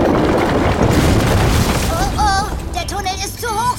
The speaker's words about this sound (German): Denn als es das nächste Mal rumpelte, brach die Rampe einfach in sich zusammen.